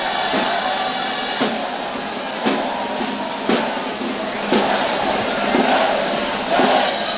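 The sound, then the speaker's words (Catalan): Energetic shouting from a crowd at a town festival procession, loud and continuous, with a steady beat striking about once per second throughout. “marcant el compàs els barrets de palla i els enèrgics crits de la multitud,”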